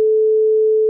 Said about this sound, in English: And so a standard gets established from the French Conservatory at 435 cycles per second. Which sounds like this.